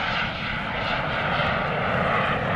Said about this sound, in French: 21h19, le jet décolle et file dans la nuit.